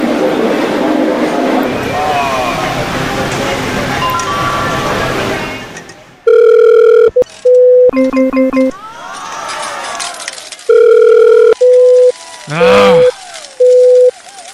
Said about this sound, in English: Stupid fax machine.